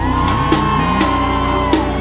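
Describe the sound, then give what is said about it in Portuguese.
Women in a concert audience give sustained, high-pitched screams that blend into a steady, even wall of shrill voices with gliding pitches throughout. “O gritinho das damas.”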